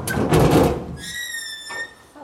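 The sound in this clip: A sealed container door pulled open by its levers: a rough clunking scrape, then a long, high-pitched creaking squeal, ending with a short, thin squeak.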